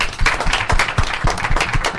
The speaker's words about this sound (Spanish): Un aplauso. Venga.